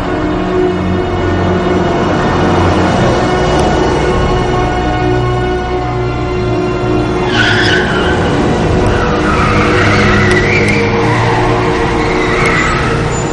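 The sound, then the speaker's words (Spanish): A black car is driven through city streets at night with tires squealing, giving a loud, continuous rush of engine and road noise with repeated skidding squeals throughout. “ambos viajan a bordo de un coche negro conducido por Ángela. Recorren las calles en mitad de la noche hasta llegar a un aparcamiento subterráneo.”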